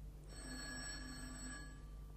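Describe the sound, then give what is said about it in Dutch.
A telephone rings in a single bright, metallic burst of about one and a half seconds in a hospital ward scene. The ring is fairly faint over a steady low hum. “Telefoon? Voor mij?”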